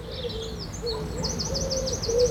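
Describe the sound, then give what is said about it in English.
Dawn chorus birdsong, with quick, high chirps repeating in rapid runs over lower whistled notes. The birds form a continuous, fairly even bed of song. “today is International Dawn Chorus Day, when you can get up at 4:30 and hear those birds singing. I've got a preview here.”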